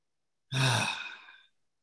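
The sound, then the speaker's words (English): One slow, deep breath taken during a relaxation exercise with both hands over the heart: a single breathy exhale that swells quickly, then fades over about a second and is heard alone. “Both hands over the heart. Slow, deep breath, relax.”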